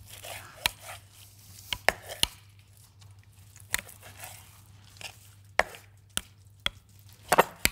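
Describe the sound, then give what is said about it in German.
Knife chopping chicken breasts lengthwise into thin strips on a board: many sharp, irregular knife strikes with short gaps, over a low steady hum and no talk. “Jetzt haben wir hier Hähnchenbrüste. Genau. Und die schneiden wir einfach der Länge nach in feine Streifen.”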